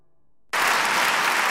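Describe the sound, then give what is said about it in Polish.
Applause in a Toyota advertisement, offered to Toyota drivers. After a brief silence, a full round of dense clapping bursts in suddenly and holds steady and loud. “Te oklaski są dla Was, kierowców Toyoty.”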